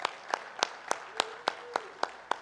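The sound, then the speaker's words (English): A church audience claps to welcome online viewers, with about nine evenly spaced, faint claps in a steady rhythm. “Hey, can we make some noise? Can we welcome in our online Vineyard family? Come on, let's hear it for them.”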